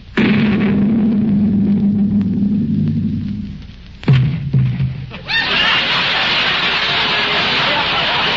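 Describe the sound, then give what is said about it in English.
A cannon shot fired across a ship's bow as a radio drama sound effect: a low steady hum, then a couple of sharp heavy bursts, followed by a loud, sustained rushing roar that runs to the end. “Mate, fire a shot across her bow. One shot across the bow. Fire!”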